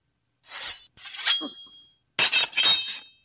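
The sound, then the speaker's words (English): Swords clashing during sword-fighting practice: a few sharp metallic strikes, each leaving a bright ringing tail, with a short gap between the first pair of clashes and the last pair. “Now let's see how you do with a sword. Okay, let's give it a shot. We will start slowly.”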